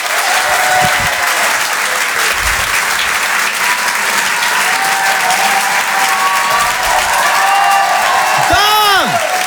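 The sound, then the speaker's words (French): A live comedy-show audience gives loud, dense applause mixed with cheering. It holds steady and strong through the whole stretch without a break. “Je vous demande un maximum de bruit, s'il vous plaît, pour Yann Guillaume.”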